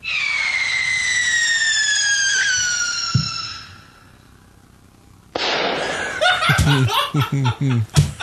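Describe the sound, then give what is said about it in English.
A recording of a missile launch that ends in an explosion: a high whistling tone slides slowly downward and ends in a short thump. After a brief quiet, several people burst into laughter. “Judging from the audio of the missile I have”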